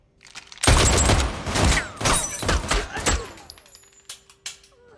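Close-range gunfire: a loud, sharp burst of several rapid shots with crackling, cracking bursts, then a fading tail broken by a few softer, sharp knocks.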